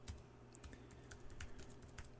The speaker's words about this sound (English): Let me just try this. I'm going to type this into my Google thing here.